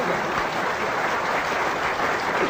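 An audience at a live comedy stage show bursts into applause, many hands clapping in a steady, even roar that stays level throughout.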